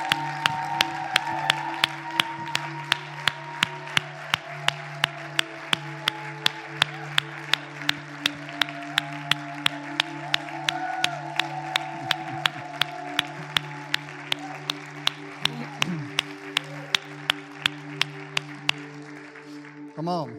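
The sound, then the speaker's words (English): Church audience applauding, with steady, closely spaced claps running throughout and a sustained low hum underneath. “Church, why don't we give him a big, huge hand tonight?”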